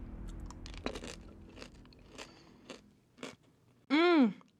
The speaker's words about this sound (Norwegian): Ta noen M-kuler. Her, spis denne.